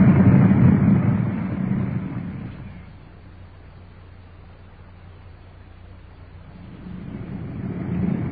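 Engine and road rumble of a police car driving to a strong-arm robbery call, a steady low roar that is loud at first, sinks quieter through the middle and swells again at the end.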